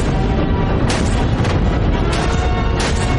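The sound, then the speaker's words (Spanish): Heavy guns on a Russian warship fire at German trenches, making a dense, continuous roar of booming blasts. Several sharper, louder bursts stand out from the din. “El buque ruso dispara contra las trincheras alemanas.”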